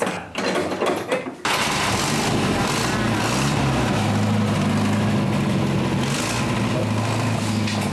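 A car engine starts abruptly after a short stretch of noise, one of several cars started up to show for filming. It settles into a loud, steady, buzzing idle with a rattly texture that continues to the end.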